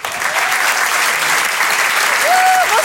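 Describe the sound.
An audience applauds as a female comedian is welcomed onto the stage. Dense, loud clapping runs unbroken through the whole clip.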